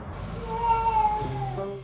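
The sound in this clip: A cat meowing at night, one drawn-out, tonal meow with clear harmonics, fairly soft and heard alone.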